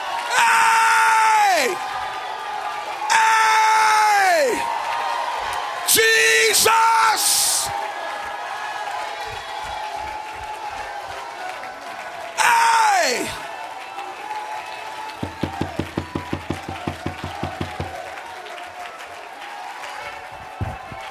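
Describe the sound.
A church audience shouts and whoops in praise during worship. Several loud bursts of voices slide downward in pitch between quieter stretches, followed by a run of rapid rhythmic claps.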